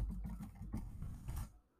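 Fingers type on a computer keyboard in a few quiet, irregular clusters of clicking keystrokes, fading out at the end.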